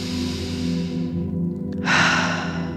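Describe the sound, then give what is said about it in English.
Breath drawn in through the nose and let out through the mouth during a guided breathwork exercise: a soft inhale, then a clear, airy exhale over a steady low musical drone. “just doing a nice, continual, easy breath in through the nose and out through the mouth.”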